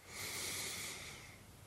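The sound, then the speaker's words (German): Single soft inhalation through the left nostril during a breathing exercise: an airy nasal hiss that swells quickly, holds for about a second, then fades. “Einatmen einfach vorstellen, du würdest die Luft durch das linke Nasenloch einatmen”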